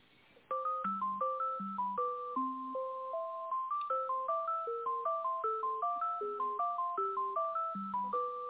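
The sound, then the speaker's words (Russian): Telephone hold melody playing while a call is transferred: a steady, evenly paced tune of many short electronic tones with thin, line-limited quality, running without a break from just after the start to the end. “Сейчас, минуточку, переключу вас.”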